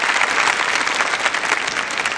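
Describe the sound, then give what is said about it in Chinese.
Audience applause welcomes a guest researcher from the Chinese Academy of Sciences' Institute for the History of Natural Sciences: dense, even clapping that carries on steadily without a break and with no voices over it. “欢迎我们今天的嘉宾，就是来自于中国科学院自然科学史研究所的研究员黄兴老师，掌声送给黄老师。”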